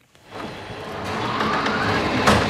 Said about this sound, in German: So klingen Zuckerrüben auf dem Weg zum Fotoshooting. Den Tisch mit 6 Blumentöpfen hat gerade ein kleiner rollender Roboter angehoben. Nun fährt er die jungen Pflanzen durch das Gewächshaus